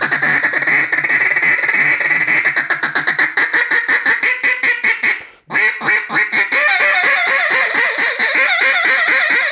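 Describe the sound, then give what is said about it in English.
A duck call imitates the squealing of a hen mallard in a long, rapid run of loud, nasal, raspy quacks that briefly breaks off midway, then resumes just as fast. “So you can hear that duck that's got a piece of rice in Louisiana stuck in his throat, and she's squealing. It's not a he, I apologize. It's a hen mallard squealing.”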